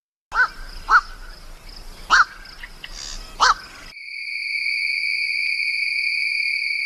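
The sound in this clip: Harsh calls of a night bird, with four loud cawing notes and a fainter one spaced unevenly, followed by a steady, high-pitched, insect-like drone that continues on its own.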